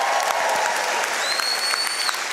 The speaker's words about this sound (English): Big round of applause for them.